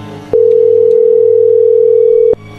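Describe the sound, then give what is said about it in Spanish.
Telephone ring tone on an outgoing call that goes unanswered: a single steady, loud, mid-pitched tone held for about two seconds, starting and stopping abruptly over a faint low hum. “A ver, márcale otra vez.”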